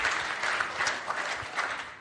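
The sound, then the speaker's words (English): Applause from a church audience at a service: dense, steady clapping from many hands that holds at an even level through a brief burst. “Round of applause.”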